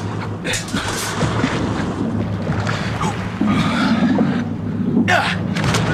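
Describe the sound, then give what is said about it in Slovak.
Oars work a boat across the water, a rough, continuous wash of splashing and water noise mixed with wind that grows slightly louder toward the end. “Vesluj rýchlejšie, Gorvenal.”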